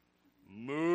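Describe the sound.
A yoked ox gives a single deep moo that swells from quiet to loud over about half a second.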